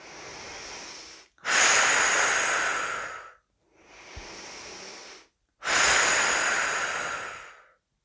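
Slow, deep breathing during a guided relaxation exercise, with long, forceful exhalations. Four drawn-out airy breaths are separated by brief silences, and quieter and louder breaths alternate.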